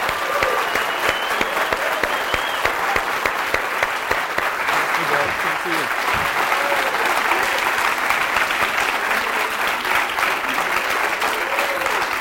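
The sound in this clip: A class audience applauds and welcomes a guest speaker with dense, sustained clapping that holds at an even level for about twelve seconds, with faint voices mixed in.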